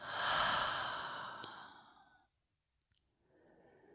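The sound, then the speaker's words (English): A deep breath during a guided breathing exercise, in through the nose and out through the mouth: a long, breathy, sigh-like exhale of about two seconds, then a brief silence and a faint start of another breath, with no talk. “So inhale in through the nose, out through the mouth.”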